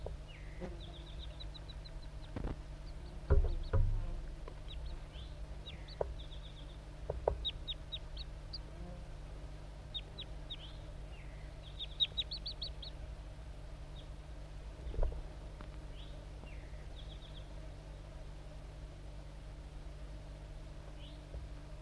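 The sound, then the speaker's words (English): Song of a male wild crossbill: many short, high chirps and quick trills come in scattered bursts over a steady low hum, with a few louder knocks early on. “the pair of wild crossbills is still around. This is the song of the male.”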